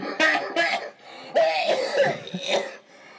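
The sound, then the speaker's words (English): Harsh coughing fits after vaping, a few ragged, forceful bursts breaking up the stretch, with strained, gasping sounds between them. “let me see if I can give you a sample of the coughing fits that start.”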